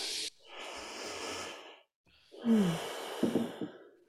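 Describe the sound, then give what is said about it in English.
A slow, deep inhale followed by a long audible exhale with a faint voiced sigh, taken together during a coaching training session. “Okay, everyone take a deep breath.”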